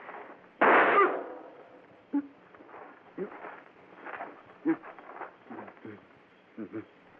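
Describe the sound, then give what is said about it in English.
One loud, sharp gunshot bursts out and fades over about half a second, followed by quieter, scattered sounds and brief thumps. “Killed him first shot.”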